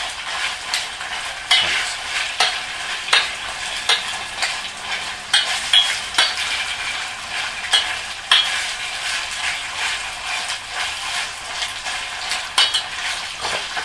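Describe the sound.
A spoon stirs a frying mixture in a pan, giving a continuous sizzle broken by many sharp scraping and clinking strokes against the pan in an uneven rhythm. No one speaks.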